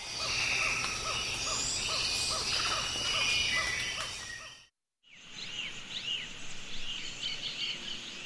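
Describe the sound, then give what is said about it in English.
Dense rainforest chorus of insects and birds from the Osa Peninsula, Costa Rica, recorded before and after logging in the late 1980s. Steady buzzing and trilling calls fill the air, broken by a brief silent gap near the middle before a second, similar stretch. “That's the sound of the Osa Peninsula in Costa Rica before and after logging in the late”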